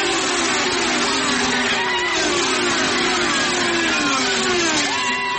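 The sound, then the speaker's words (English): Race car engines roar at Watkins Glen International in New York as the cars accelerate up the hill, drafting and moving around. A loud, continuous high whine glides up and down in pitch as the cars pass. “Despite the cancellation of Indy and NASCAR auto races, one did take place at Watkins Glen International in New York. Going up the hill, and he's got a nice little gap on Rosenquist already. Cars drafting, moving around,”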